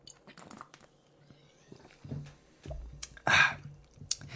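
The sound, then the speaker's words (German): Quiet mouth sounds of someone taking a sip of a drink: a few soft clicks and smacks, then a brief, louder rushing burst near the end, with no talk. “ich trinke jetzt erstmal ein Schlückchen”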